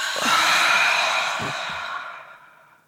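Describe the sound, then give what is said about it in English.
A big, deep breath drawn in and let out during a simple arms-raised relaxation exercise, one long airy inhale and exhale that swells loudly and then fades away softly. “And then just do a big, deep breath in. And then bring them down and breathe out.”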